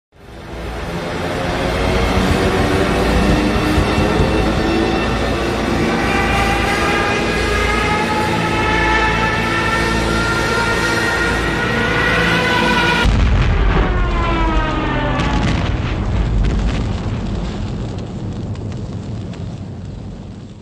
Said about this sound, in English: These are the sounds of Stuka dive bombers attacking American troops.